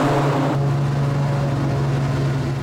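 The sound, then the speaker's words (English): An aeroplane engine runs with a loud, steady droning hum and a rough mechanical rattle. A brighter hiss drops away early, leaving the low, even engine tone to carry on without talk. “The sound of an engine firing up breaks the silence. But this isn't a car, a bike, or even a truck. This is the sound of an aeroplane.”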